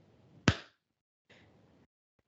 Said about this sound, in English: It's just really loud. You're clapping.